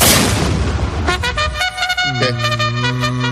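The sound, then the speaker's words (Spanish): An artillery cannon fires on the ramparts of Ceuta with one heavy blast at the start that rumbles away. Sustained horn-like tones follow. “en un acto precioso en las murallas de Ceuta, que es un sitio absolutamente increíble, cargado de historia, pues tuve que disparar un cañón.”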